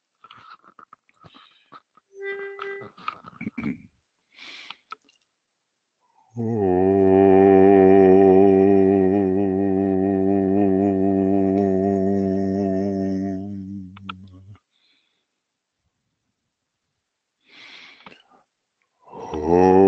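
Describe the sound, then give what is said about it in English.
A group chants the syllable om in unison as one long, steady, low droning tone lasting about eight seconds. Soft rustles come before it and brief sounds follow it. “That's inwardly we say that, and outwardly we sound the ohm.”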